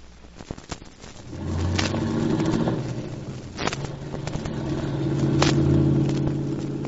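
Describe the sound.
A car being driven, its engine giving a steady low rumble that swells and eases, with a few sharp clicks and knocks early on and a brief thump midway.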